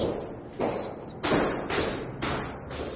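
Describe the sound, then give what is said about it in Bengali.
Knocking on a door: a series of dull, fairly loud thuds in an even, unhurried rhythm, about five blows over three seconds, with no voices. “ফণির দরজায় টোকা মারল”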